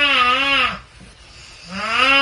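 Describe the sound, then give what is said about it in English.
A person snores while sick, two loud, buzzy, nasal inhalations with a wavering, kazoo-like pitch, separated by a quieter breathy pause. “you actually sent in a video that your husband took of you snoring, but this was while you were sick.”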